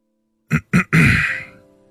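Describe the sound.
A man clears his throat awkwardly: two short, sharp rasping bursts, then a longer, loud, harsh rasp that slowly fades away. The sound is heard alone.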